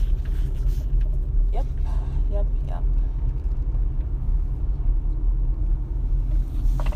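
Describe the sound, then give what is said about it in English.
Steady low engine rumble of a car driving slowly up and down the streets of a residential subdivision, an even drone that holds throughout without any clear pass-bys. “I'm just driving up and down in my subdivision and just taking a look at everything that's going on.”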